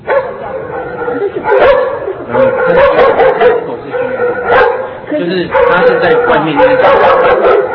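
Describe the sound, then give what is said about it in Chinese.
A neighbour's dog in a villa estate, caught in a home-recorded video, barking loudly and insistently in rapid runs of sharp barks and yips, with a short pause partway through before the barking resumes. “好我们来听听这狗叫到底吵不吵”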